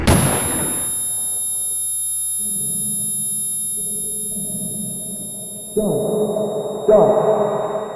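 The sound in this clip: A single loud video-game gunshot bursts at the very start and decays over about a second, leaving a sustained high ringing tone and low drone that swell louder twice near the end.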